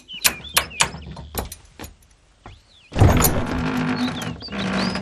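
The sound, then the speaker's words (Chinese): A door being opened, announced by a few sharp clacks in quick succession, then a pause before a loud, sustained scraping rush as the door moves. “停停停！哎，开门啊！”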